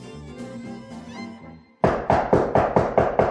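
Knocking on a door: after a stretch of soft tonal music, seven firm, evenly spaced knocks land in a quick, steady rhythm.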